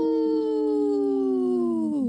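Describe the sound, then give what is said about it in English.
A long wolf howl holds a steady, slightly falling pitch for about two seconds, then dips sharply at the very end. It is loud and sounds alone, with no talk over it. “Howling for Wolves, protecting wolves for future generations. Howl!”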